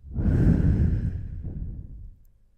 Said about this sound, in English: let's just take three deep breaths. You can do that in your own speed. Just breathe in and out.